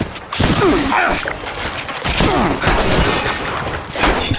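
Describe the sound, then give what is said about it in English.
Small robots firing lasers in a video game, loud electronic zaps and chirping sweeps over a busy, crunchy layer of game effects, coming in a few dense bursts. “These little robots are shooting lasers at me.”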